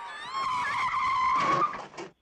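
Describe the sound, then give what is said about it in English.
A car pulling up with a short tire squeal, a bright, high-pitched screech rich in harmonics that holds for about a second and a half before cutting off, with no voices. “A car pulls up.”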